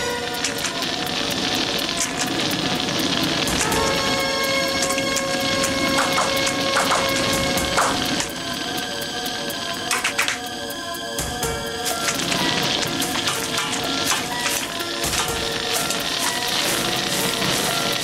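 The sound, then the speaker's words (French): Meat sizzles and crackles in a wok, a loud, steady frying hiss that holds throughout with scattered sharper pops. “Ah, c'est une méthode pour cuire la viande sans qu'elle attache au fond du wok. Mais si elle brûle, c'est terminé.”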